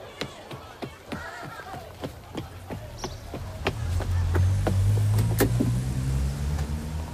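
A taxi pulls up in Brighton: a run of sharp taps and clicks comes first, then a low engine rumble swells in and holds steadily to the end.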